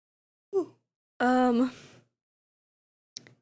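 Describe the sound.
A voiced yawn comes as one drawn-out, groaning tone lasting under a second. A short vocal sound comes just before it and a faint click follows.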